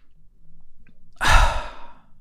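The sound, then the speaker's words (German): A single deep breath, drawn in and let out during a calm guided relaxation, rises as a soft, airy rush and then fades away. Before it, only a faint low hum is present and no one speaks. “Und jetzt nimmst du noch einen tiefen Atemzug ein und aus, kommst ein bisschen zur Ruhe.”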